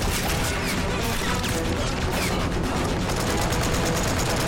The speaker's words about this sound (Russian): Пулемет продолжает десятками выкашивать немецкую пехоту.